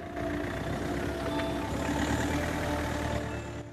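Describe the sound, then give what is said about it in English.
A police car rolls slowly along a quiet road, giving a steady, low engine rumble with a faint background hiss. The rumble stays fairly even throughout, with no voices. “A police car drives slowly along the quiet road outside the RSPCA building.”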